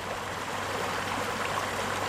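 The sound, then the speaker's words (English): Water in a small stream in a city's southeast, carrying runoff drained mostly from farm fields toward a stormwater retention pond, gives a steady, even rushing that stays faint and unbroken throughout. “This stream in the southeast part of the city is delivering water that drained mostly from farm fields to a city-owned stormwater retention pond”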